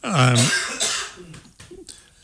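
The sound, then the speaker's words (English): A person coughs, a harsh voiced burst followed by rougher, throaty coughs that fade, with no clear talk. “Okay, I'm back. Sorry. Okay, I had to cough.”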